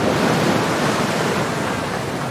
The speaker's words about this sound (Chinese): 在澳大利亚南部海域，狂风肆虐。